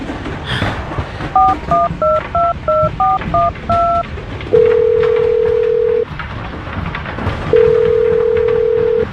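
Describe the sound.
A phone number is keyed in with a quick run of short touch-tone beeps. Then two long, steady ringing tones follow, separated by a pause, as the outgoing call connects.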